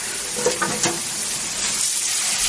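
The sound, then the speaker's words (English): Garlic frying and burning in a hot pan gives a steady, bright hissing sizzle that runs throughout, with a few brief louder ticks early on. “As you can see, it's very hot and it's... Oh my God, she completely burned the garlic. The garlic has now turned brown.”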